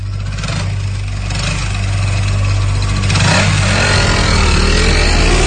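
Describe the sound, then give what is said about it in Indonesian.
A motorcycle engine runs loudly and continuously, a dense mid-pitched drone that stays steady throughout with no voices. “Aku mulai menaiki motor Abai.”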